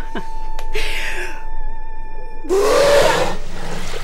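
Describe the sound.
A whale trumpeting through its blowhole: a steady tone and a breathy hiss, then a loud, rough blast carrying a rising note before fading into low noise.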